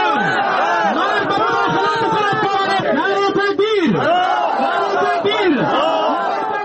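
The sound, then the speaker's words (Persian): Protesters chanting and shouting at a demonstration in Charikar, Parwan province, Afghanistan, against a memorial ceremony for Taliban leader Mullah Omar. Many loud voices rise and fall together without pause. “صدها تن از ساکنان ولایت پروان در اعتراض به برگزاری مراسم فاتحه برای ملا محمد عمر رهبر طالبان در افغانستان دست به مظاهره زدند.”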